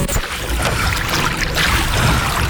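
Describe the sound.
Water rushing and splashing as a boat is rowed against the tide, a dense, steady wash with no clearly separate paddle strokes.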